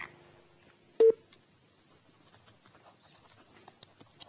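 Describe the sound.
A single short telephone beep as a call connects on a radio phone-in, loud and abrupt against an otherwise faint background.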